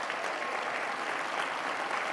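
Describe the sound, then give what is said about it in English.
Applause from an audience at a business seminar event: a continuous, even wash of many hands clapping, fairly soft and steady from start to end, with no talk over it. “And I know all of you who are applauding are saying, good, that guy needs them.”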